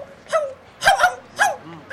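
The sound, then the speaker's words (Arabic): A dog barks and yips in short, high-pitched bursts, several in quick succession, loud and with no talk. “لا أفهم ماذا يقول هذا الكلب، انظر إليه. ماذا يقول؟”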